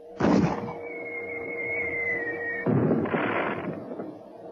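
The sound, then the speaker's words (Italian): A tracer flare rocket is fired: a sharp, loud burst is followed by a steady, high whistling tone lasting about two seconds, then a second rushing, noisy blast that slowly fades, with no talk over it. “Mito, spara un razzo! Subito! Razzo tracciante! Presto!”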